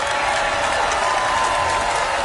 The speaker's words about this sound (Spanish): yo encontré que aplaudieron poco para la cantidad de plata que era